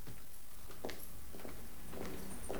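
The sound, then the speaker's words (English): Two people walk down a cobbled passageway in the moonlight, their footsteps a few steady, soft footfalls heard through a continuous background hiss. “He steps out into the moonlight, followed by attractive, long, fair-haired Michelle. They walk back down the cobbled passageway.”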